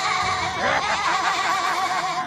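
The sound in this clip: A voice imitates a sheep's bleat in a single sustained, wavering cry with a rough, quivering tone that holds steady throughout.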